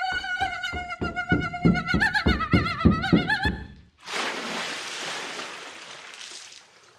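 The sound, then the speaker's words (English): A bound, blindfolded person running on a TV set, up a ramp and into a ten-foot-deep dunk tank. Rhythmic thumping beats with a sustained tonal hum lead into a sudden loud splash of water that fades over a few seconds. “that was the sound of Sarah Milliken running bound and blindfolded across a TV set, up a ramp, straight into a 10-foot-deep dunk tank.”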